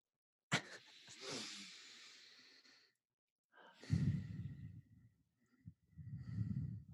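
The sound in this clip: Deep breathing taken together by a group: a long, hissing inhale followed by audible, sighing exhales with a low rasp, moderately loud, with no talk.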